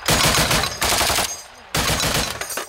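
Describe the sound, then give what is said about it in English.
Automatic gunfire from AK rifles and a Browning heavy machine gun, fired from a trench at enemy positions in winter warfare. A few loud, dense bursts of rapid shots are separated by short, quieter pauses. “Fire on Russian positions using AKs and a U.S.-supplied Browning heavy machine gun.”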